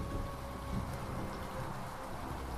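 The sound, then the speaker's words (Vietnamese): Heavy pouring rain makes a dense, steady hiss that stays even and unbroken throughout, with no voices. “Tại thôn Cát Dương, trời mưa như là thác đổ”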